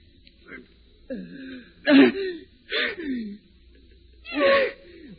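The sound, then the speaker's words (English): A person chokes in a series of strained, rasping gasps and throat-catching bursts, several in a row separated by short pauses, with a lower hum underneath. “Got my throat. Choking.”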